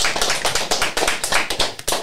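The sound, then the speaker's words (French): A small group of guests clapping in a radio studio. The hand claps are thin and brisk, forming a quick, slightly uneven patter with no voices. “Alors ils peuvent applaudir les invités qui sont à ma gauche.”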